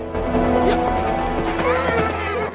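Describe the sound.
A horse ridden past with a rider, its hooves clip-clopping steadily while the animal lets out a whinny, over a continuous low background rumble.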